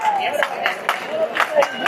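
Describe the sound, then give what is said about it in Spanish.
Bullring crowd clapping, a steady series of sharp handclaps in a loose rhythm over a low murmur of voices. “Las palmas siguen, persisten. Las palmas persisten.”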